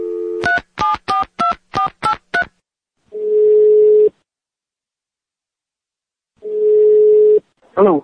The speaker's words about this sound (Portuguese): Pronto, vamos ligar a Rapadura Fone.